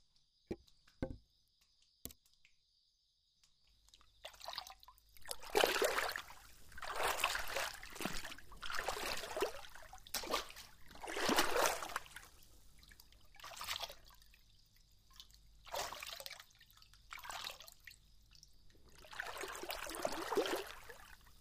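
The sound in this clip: Water trickles and splashes in a hot spring bath: a few isolated drips at first, then soft, continuous flowing water that swells and fades in uneven waves, fairly faint throughout.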